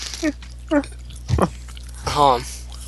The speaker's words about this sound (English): Oh. I'm eating.